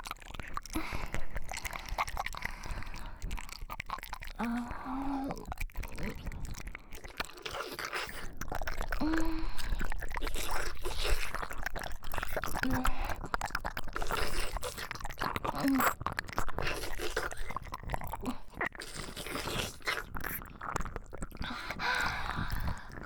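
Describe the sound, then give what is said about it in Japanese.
Continuous ASMR licking mouth sounds: dense, wet slurping, smacking and crackling saliva noises form a near-unbroken stream. Occasional soft vocal murmurs rise above it. “次は、おちんぽなめなめして、ご奉仕させていただきますね。”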